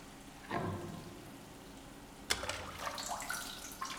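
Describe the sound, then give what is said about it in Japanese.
Hot water poured over a body to rinse off soap lather: two soft splashing pours, each trailing into gentle trickling and dripping. “お湯をかけて、このままきれいさっぱり洗い流すわよ。”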